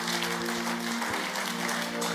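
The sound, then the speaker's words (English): Soft clapping from a church audience giving praise, a continuous patter of many hands over a steady sustained tonal hum. “Give the Lord a clap for that”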